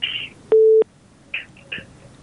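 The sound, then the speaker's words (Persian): Telephone line tones while dialing the next caller on a call-in line: a single steady beep, with short faint chirps before and after it. “تماسشان قطع شد. شنونده بعدی را میگیریم.”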